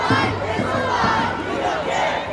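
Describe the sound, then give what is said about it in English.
A crowd of hundreds chants at an abortion-rights protest march against a Supreme Court decision and a state ban. The shouted voices form a dense, loud, steady wash that never drops out. “a chorus of chants rang out from a crowd of hundreds”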